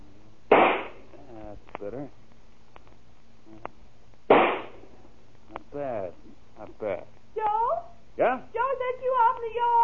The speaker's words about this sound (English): Why are you shooting that rifle? What are you shooting at?